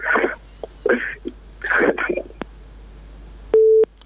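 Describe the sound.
A telephone busy tone sounds after a call drops, a single steady mid-pitched beep following a few seconds of talk.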